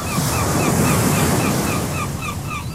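Sea water and waves wash in a loud, steady rush with wind-like hiss throughout, while faint repeated high bird calls sound above the surf.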